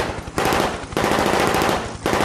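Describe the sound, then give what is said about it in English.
Automatic gunfire shot into the air during a rooftop hostage scene in an action film: a few loud bursts of rapid, crackling machine-gun fire, separated by brief dips. “He fires in the air over his head, sending the hostages scattering for the stairs.”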